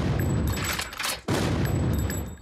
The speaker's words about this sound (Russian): Огонь! Витязь за витязем улетает на ядре.